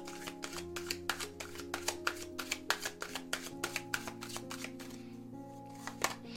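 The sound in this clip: Tarot cards being shuffled and drawn: many quick, soft snapping and flicking clicks in an uneven rhythm, faint overall, over a sustained low tonal hum.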